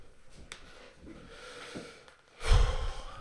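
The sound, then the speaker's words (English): A deep breath drawn by a speaker pausing mid-talk, with a few soft, faint breaths first and then one loud, rushing breath at the end. “Sorry. I really need to take a deep breath there.”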